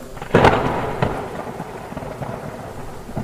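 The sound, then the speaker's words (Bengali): Heavy afternoon rain pours steadily while a sharp, loud thunder crack bursts early and then rumbles away under a constant dense hiss of rainfall. “বিকেলে বৃষ্টির জোর আরও বেড়েছে প্রবল বেগে বৃষ্টি হচ্ছে সঙ্গে বজ্রপাত”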